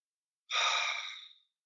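A single large exhale through the mouth taken as a relaxation breath, a soft breathy rush that starts fairly strong, then tapers off smoothly and fades out after about a second, heard alone in near silence.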